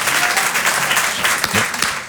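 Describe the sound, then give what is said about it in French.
Dense, steady applause, a continuous wash of many overlapping claps at an even loudness throughout, with no pauses or clear peaks. “Moi aussi, je m'applaudis”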